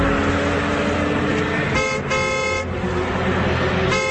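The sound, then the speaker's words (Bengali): Car horn honking repeatedly from a speeding car approaching from behind on a road, a few loud horn blasts with a bright tonal buzz breaking in after steady engine and road rumble. “ঘন ঘন horn শুনে মনে হচ্ছে গাড়িটা খুব জোরে ছুটে আসছে, হয়তো হর্ন দিয়ে সামনের গাড়িকে থামতে বলছে।”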